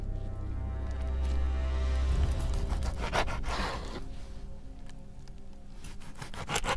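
Rasping, sawing cuts from a sharp blade hacking a body's arms into pieces in a horror story: continuous rough scraping strokes that grow denser toward the middle, over a low rumble at the start.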